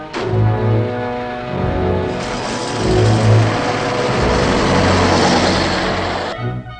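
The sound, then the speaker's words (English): A truck engine pulls away from beside a gentle hill: a low, tonal engine drone swells into a louder, rougher roar as it revs, holds steady, then cuts off abruptly near the end. No voices. “truck pulls up beside a gentle hill on which sheep are grazing.”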